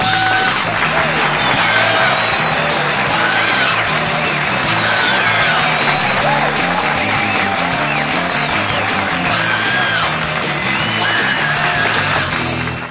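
A live studio audience cheers and applauds in a loud, continuous roar of clapping, yells and whoops that holds steady throughout and fades only at the very end.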